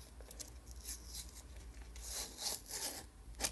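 Faint, crackly rubbing and rustling of self-adhesive plastic film being handled and peeled from a piece of cardboard, in uneven scratchy bursts that grow slightly busier toward the end.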